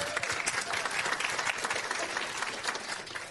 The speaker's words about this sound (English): Give Faith a hand this morning.